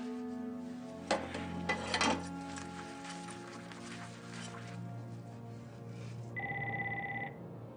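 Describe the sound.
A telephone ringback tone on an outgoing call: one steady electronic ring burst sounds near the end, after a stretch of other tonal sound.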